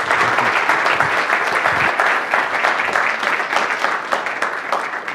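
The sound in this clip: Audience applause welcomes a lecturer at a talk on public debt in the American Revolution, a dense, steady clapping that holds for several seconds without speech.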